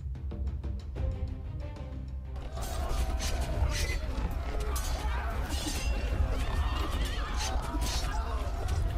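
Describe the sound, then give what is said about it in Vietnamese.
Horses neighing in a chaotic battle, amid clashing blades and a dense, loud din of crashing and creaking that swells after about two seconds and continues unbroken. “Một màn giao tranh hỗn loạn, tiếng ngựa hí, tiếng đao gươm va chạm, tiếng hô hoán gào giết.”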